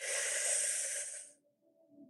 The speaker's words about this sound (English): On this next breath, take a full breath in.